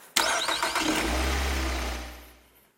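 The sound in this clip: A car engine starts with a sharp crank and catch, then settles into a steady low rumble that builds briefly as the car pulls away, fading out toward the end. No talking.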